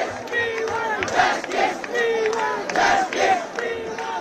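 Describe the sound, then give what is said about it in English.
A large youth-led protest crowd in Delhi chants in loud, rhythmic unison, voices rising and falling in repeated shouted phrases that form a steady beat, with no single speaker standing out. “Sounds of defiance organised by the youth-led and memorably entitled Cockroach Movement, the CJP.”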